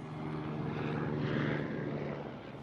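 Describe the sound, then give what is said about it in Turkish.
A helicopter flying overhead gives a steady droning engine rumble that holds at an even level throughout, with no voices. “O helikopter.”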